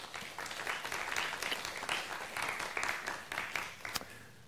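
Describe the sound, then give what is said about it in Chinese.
Church audience applauding to give glory to God: a full, continuous burst of clapping with a few sharper individual claps standing out, easing off slightly toward the end. “阿们的拍手，把荣耀给神。”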